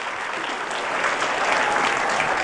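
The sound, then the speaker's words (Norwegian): A group applauds a person with steady, even clapping that fills the moment and swells slightly toward the end. No one speaks over it. “Da tar vi en applaus for deg her.”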